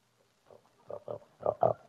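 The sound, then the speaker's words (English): A fat pig in a muddy pen grunts and oinks with a few short, nasal grunts that grow louder toward the end, heard alone. “Have you fed the pig yet?”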